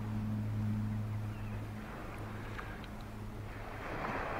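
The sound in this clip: The sea in a 1966 French radio production of Beckett's Embers comes through as a steady, low rumbling wash with an underlying hum, continuous and even, with hiss rising slightly at the end.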